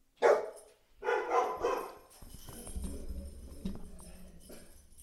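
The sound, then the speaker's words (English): Dog barking: a short sharp bark, then a longer burst of barking, both fairly loud. A low, uneven rumble follows, with no further clear barks. “I apologize. That's my dog barking.”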